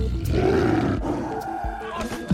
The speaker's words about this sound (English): there is a tiger in the bathroom!